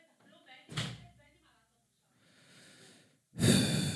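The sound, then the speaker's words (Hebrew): A door is shut at home, giving a sharp, heavy thud followed later by a second loud, abrupt burst of sound, with soft rustling in between. “את יכולה לסגור את הדלת כמו שצריך?”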